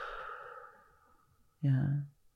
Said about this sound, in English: And then if you could take a breath with me for a moment. And a breath out.